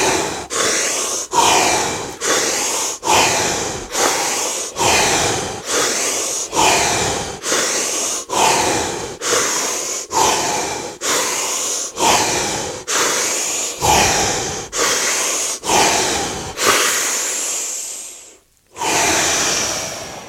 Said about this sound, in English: So 11 more breaths.